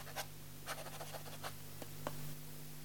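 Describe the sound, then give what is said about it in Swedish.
Pen scratching on paper as a parish priest writes in the church register: faint, scratchy strokes in short bursts separated by pauses, over a steady low hum. “Så skrev prosten i församlingsboken några ord som man aldrig förr hade skrivit av någon av sina församlingsbor, utflyttad till norra Amerika.”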